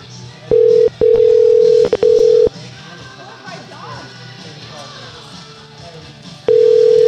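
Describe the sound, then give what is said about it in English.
A telephone ringing tone sounds on an unanswered call: steady, low electronic beeps in a few bursts. A longer quiet gap follows, then the tone starts again. “Does anybody have voicemail anymore? It's a goddamn long ring.”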